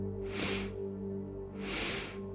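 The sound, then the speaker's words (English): Two sniffing inhales through the nose during a guided breathing exercise, each a soft, airy hiss about a second apart, heard over a steady low drone. “And now intentionally breathing, taking two sips of air”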